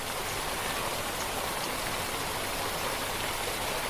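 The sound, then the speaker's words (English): Steady rushing water from a waterfall cascading over moss-covered stone in a temperate rainforest, an even, unbroken hiss that stays fairly soft and never changes, with no voices or other sounds. “Deep in temperate rainforest, water falls like liquid silver.”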